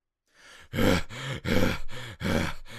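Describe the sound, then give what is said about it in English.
Heavy, voiced panting from a person out of breath after hurrying, a few loud, strained breaths in a steady rhythm with short catches between them, with no words spoken. “Why are you always out of breath?”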